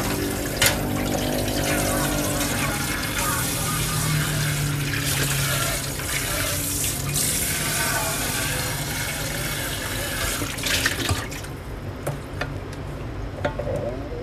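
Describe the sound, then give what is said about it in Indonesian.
Steady rushing tap water while a pot, an oil-skimming strainer and plates are washed, a loud continuous wash of water with a few small knocks toward the end. “ini kan banyak yang harus aku cuci ada panci ada saringan yang buat angkat minyak dan piring”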